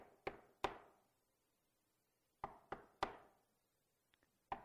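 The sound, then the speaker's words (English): Knocking on a door: two sharp knocks, a pause, then three quicker knocks, a fainter pair of light taps and one final knock. Each hit is crisp and separate, with nothing else sounding in between. “Behold, I stand at the door and knock.”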